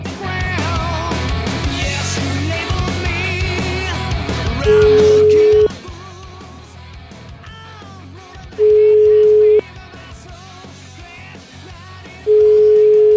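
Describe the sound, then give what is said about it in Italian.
A telephone ringback tone sounds on an outgoing call: three long, steady, mid-pitched beeps at regular intervals, each about a second long, over a quieter musical background that is louder before the first beep. “devo chiamare questo Pino Botta, aspetta un secondo perché c'è un appuntamento con sto Pino”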